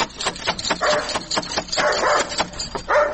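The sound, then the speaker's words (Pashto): A dog at a house door barks repeatedly in a rapid series of sharp barks, with no talk. “دا څه بد سپی لري.”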